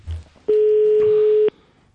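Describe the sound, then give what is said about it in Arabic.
A telephone line rings with a single steady tone of about one second, a plain mid-pitched buzz that starts and stops abruptly over a quiet background. “الهاتف يرن”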